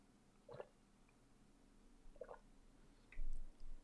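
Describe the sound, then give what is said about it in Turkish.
Soft wet sips and gulps from someone drinking water, a few brief faint swallows spread apart, with the last ones slightly louder and close together near the end. “Su içeyim şöyle.”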